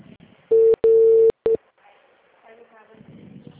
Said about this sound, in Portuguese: Tô ligando.